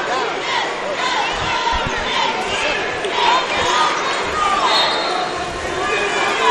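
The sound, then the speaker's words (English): A few low thumps of a basketball bouncing on a court during a game, under continuous commentary and crowd chatter. “Slap of the basketball.”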